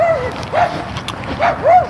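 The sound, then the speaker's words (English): Two small, yappy dogs barking: several quick, high-pitched yaps in an irregular rhythm over steady background noise. “I'm going to walk past two small yappy dogs.”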